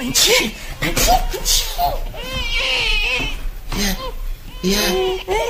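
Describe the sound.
A baby cries inside a house in loud, wavering, high-pitched wails and sobs that run almost without pause across the whole stretch.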